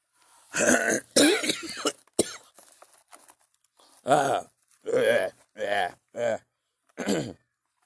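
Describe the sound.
A person clears their throat of saliva in a series of rough, guttural bursts. The bursts sound like coughs and are separated by short pauses.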